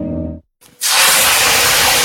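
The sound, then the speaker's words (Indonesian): Hot cooking oil sizzling in a pan, a loud, steady hiss that sets in abruptly after a brief silence and carries on without a break. “Aduh, aduh, aduh, kecipratan minyak panas nih.”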